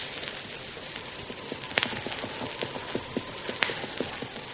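Horses' hooves clip-clop as riders approach a house, a steady run of many light hoofbeats over a constant hiss.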